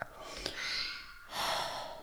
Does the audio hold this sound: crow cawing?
no